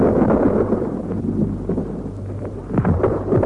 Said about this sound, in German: Unsere eigene Artillerie ist es, die in die Bereitstellungsräume des Gegners hineinschießt und dort vernichtet, was vor dem Angriff zu vernichten geht.